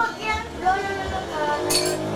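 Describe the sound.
A spoon clinks lightly against a glass while an iced drink is stirred, giving a few bright, brief chimes under people talking.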